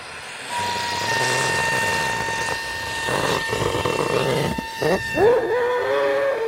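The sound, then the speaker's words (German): Helium rushes from a gas cylinder into a weather balloon as a steady, airy hiss laced with thin whistling tones, with a few wavering squeaky tones rising near the end. “Ein Wetterballon wird mit Helium aus einer Gasflasche gefüllt. Er wächst und wächst, bis er nach gut 1,5 Minuten einen Durchmesser von etwa 1 Meter erreicht.”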